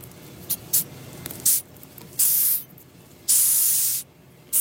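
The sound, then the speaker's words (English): Hissing of a 10-centimetre Madagascar hissing cockroach: a few brief, sharp hisses, then longer, louder breathy bursts separated by short pauses. “That is the sound of a 10-centimetre-long Madagascar hissing cockroach.”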